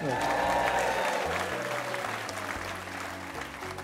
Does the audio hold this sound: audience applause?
yes